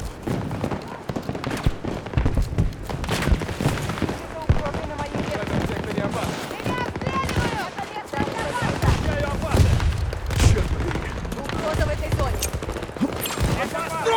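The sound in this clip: Gunfire in a video game, with rapid shots and bursts recurring across fourteen seconds amid booms, while players talk over the action.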